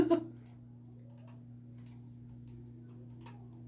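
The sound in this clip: Soft computer mouse clicks, a few faint sharp ticks spaced over a few seconds, sit above a steady low electrical hum, with a brief burst of voice at the very start.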